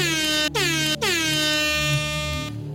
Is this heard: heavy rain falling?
no

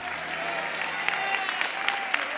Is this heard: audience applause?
yes

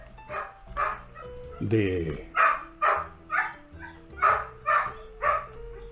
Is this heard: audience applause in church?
no

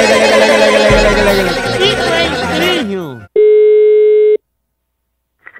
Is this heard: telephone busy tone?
yes

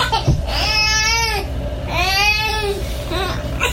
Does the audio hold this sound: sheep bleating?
no

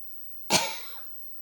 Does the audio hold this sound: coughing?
yes

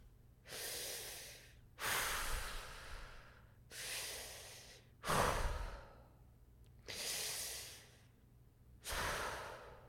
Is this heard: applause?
no

